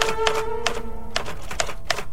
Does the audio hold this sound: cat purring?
no